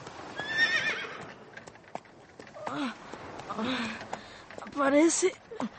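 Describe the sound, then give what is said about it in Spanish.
A milkman's horse-drawn cart passes with hooves clopping and a horse whinnying a few times, the neighs high and wavering, while people talk over the scene. “Sí, sí, es el lechero con su carreta.”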